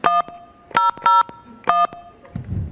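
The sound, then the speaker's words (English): Four telephone keypad tones are pressed to enter an ID into the Verizon voicemail system. The bright, clipped beeps come at uneven intervals and are followed by a faint rustle at the end. “Enter your ID followed by pound.”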